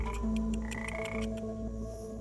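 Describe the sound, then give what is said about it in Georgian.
A frog croaks in a rapid, steady series of clicking pulses over a low, sustained drone while its poison is being extracted for kambo. “ბაყაყი კი თავის შხამს გამოყოფს. ბაყაყს ეს არ მოსწონს, მაგრამ ეს ერთადერთი საშუალებაა.”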